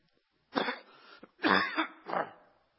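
Coughing and throat clearing from a tickle in the throat: three rough, husky bursts, each a short hacking cough or harsh clearing, with brief pauses between them.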